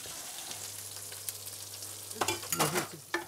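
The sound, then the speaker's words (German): Food sizzles as it is seared again in a pan on an old stove: a steady, loud hiss throughout, joined in the second half by a few sharper bursts of stirring and scraping. “Braten wir nochmal an.”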